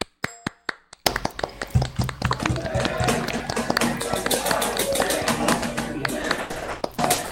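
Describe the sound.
Applause at a military police battalion ceremony welcoming a trainee into the soldiers' ranks: a few sharp, separate claps, then dense, sustained clapping that continues loudly to the end.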